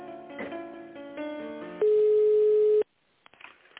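A telephone line tone sounds while an office call about a bank guarantee offer is transferred to a tender specialist. Softer tonal sounds lead into one loud, steady mid-pitched tone lasting about a second, then a sudden cut to near silence and faint noises.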